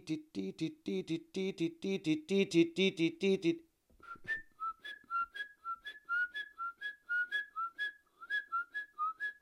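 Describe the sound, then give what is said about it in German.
Great tits singing loud, rhythmic, repeated two-note phrases. A dense burst of rapid, lower notes breaks off into a short pause, then clear, high see-saw phrases follow in steady succession. “Und dann kam sofort ein zweites Individuum dazu und dann ein drittes auf engstem Raum. Also wir haben auf 40, 50 Meter drei Kohlmeisen um uns herum gehört.”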